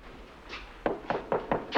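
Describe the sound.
Knocking on an apartment door: five sharp, distinct knocks in an uneven rhythm, loud and clear with no voices.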